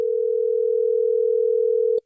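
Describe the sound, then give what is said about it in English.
A telephone line tone as a radio show calls a listener: one steady, mid-pitched tone holding for about two seconds, then cutting off abruptly with a small click. “Are you ready for us to get him on the phone?”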